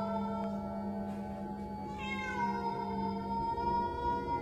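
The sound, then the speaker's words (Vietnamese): A cat meowing at night, its cries echoing from a graveyard: drawn-out, high, wavering wails that carry on without pause, with no other sounds around them. “Bất giác có tiếng mèo kêu vang vọng từ khu đồng mả đằng sau vang lên.”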